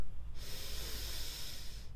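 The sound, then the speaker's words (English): A deep inhale through the nose during a guided breathing exercise: a soft, airy hiss that rises quickly and holds steady for about a second and a half before stopping, with no talking. “Let's do it one more time. Smell the pizza, breathe in.”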